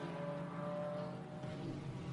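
Engine of the number 23 Toyota Gazoo Racing race car, a faint, steady droning hum with layered low harmonics and no clear rise or fall.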